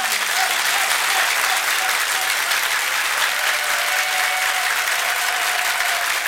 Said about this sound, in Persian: کف بزن دیگه،